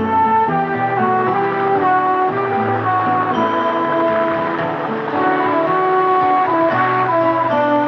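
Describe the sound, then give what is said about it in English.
Instrumental theme music from a TV series plays alone, with sustained tones and chords that shift steadily, without a break or voices. “I just love MASH. In case you don't know the music, it sounds like this.”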